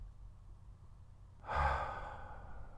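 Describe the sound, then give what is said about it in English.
A person takes a single deep breath in, a soft, airy inhale starting midway and then tailing off over a faint low hum. “Now, take a deep breath. In.”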